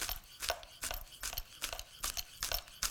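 A knife chops green onions on a board in a quick, even rhythm of many crisp strokes, each a short sharp tap, faint and with no voices.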